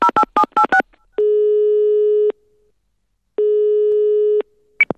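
A telephone call being placed: a quick run of five short dialing beeps, then two long, steady ringback tones separated by a silent gap, ending with a brief higher blip.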